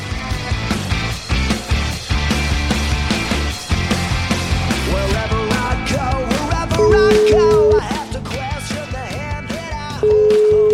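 Telephone ringback tones from an outgoing call: two separate beeps, each about a second long, sound under loud, busy music.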